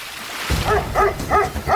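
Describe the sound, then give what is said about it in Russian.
A dog barks at a boat by a river: four short, bright, harmonic barks in steady succession over a continuous low background noise. “Нет, он на лодку лает.”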